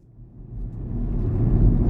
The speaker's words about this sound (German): Kevin Barry fährt durch die irische Grafschaft Sligo